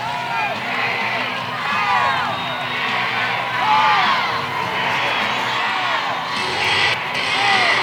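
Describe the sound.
Crowd noise fills the gym at a high school basketball game, a steady, dense roar of voices and cheering that swells slightly at times and never drops out.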